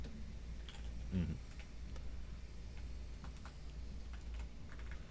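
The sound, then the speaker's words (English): Typing on a computer keyboard, heard as faint, scattered clicking keystrokes at an irregular pace against a low steady background hum. “Type, type, type, type, type, type.”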